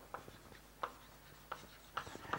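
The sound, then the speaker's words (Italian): Handwriting produces five short, scratchy strokes at uneven intervals, faint and dry against a quiet background. “scrivo qui le immagini”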